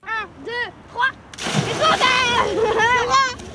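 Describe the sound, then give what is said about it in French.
Water splashing and sloshing on the Meuse river at Namur, along a riverside path beside a wooden pontoon. The splashing turns loud and continuous after a short opening, and people's voices sound over it. “L'eau rafraîchissante qui clapote le long du Ravel, un joli ponton en bois”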